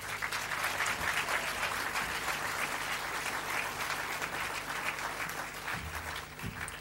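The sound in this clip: Audience applause welcoming a speaker to the stage, a dense and steady patter of many hands clapping that carries on throughout and eases slightly toward the end.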